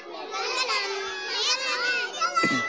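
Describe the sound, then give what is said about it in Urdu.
Many children making noise in a room during a children's religious lesson: a dense, continuous din of overlapping young voices chattering and calling out at once, with a brief sharper cry near the end. “آج تو بچے زیادہ ہیں اور شور شرابہ مچا ہوا ہے”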